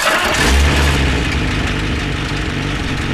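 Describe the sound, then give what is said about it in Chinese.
A car engine starts and runs, with a loud, continuous mid-pitched rumble throughout the short stretch. “哎，发动了， 这么快啊？”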